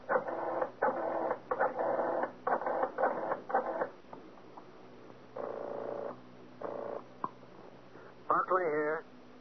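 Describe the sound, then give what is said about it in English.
A telephone is dialed as a series of short, ratcheting mechanical bursts in quick groups, steady in pitch, with pauses between the groups and a final buzzy burst at the end. “Better yet, I'll dial and have him speak with you.”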